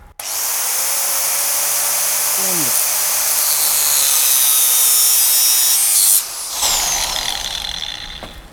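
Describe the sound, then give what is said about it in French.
Angle grinder cutting metal while the operator holds steady pressure: a loud, continuous high-pitched grinding hiss runs for about six seconds, then drops abruptly and tails off. “je vais maintenir une pression du coup et allumer donc ma meuleuse.”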